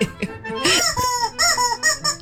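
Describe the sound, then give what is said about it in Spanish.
Squeaky World Cup novelty horn with a chirpy, little-animal tone, blown in a string of short, uneven honks and squeals, fairly loud and with no voices. “Parece un animalito, man, una corneta. Es la corneta del Mundial.”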